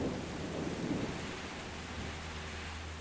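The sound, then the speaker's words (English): Rain from a thunderstorm in South Australia, a soft continuous hiss with a low rumble of thunder early on, faint throughout. “By coincidence, a happy coincidence, a storm has just broke in the background.”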